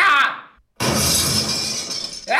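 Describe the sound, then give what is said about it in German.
Glasses being smashed: a loud, bright crash of shattering glass, a brief silent break, then a long sustained burst of breaking and tinkling shards, with another crash starting right at the end. “Jetzt habe ich da etwa alles karabum kaputt gemacht da hinten. Nur noch die letzten Gläser vertatschen.”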